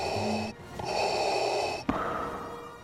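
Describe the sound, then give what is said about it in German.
Darth Vader's mechanical breathing through his breathing mask: hissing, respirator-like breaths heard alone, a few long airy pulls and pushes separated by short gaps, steady and fairly loud. “Nicht nur das Geräusch von Darth Vader, die nur eine Atemmaske des Imperators, des Befehlshabers über die dunkle Seite der Macht am Leben erhält, ist heute Kult.”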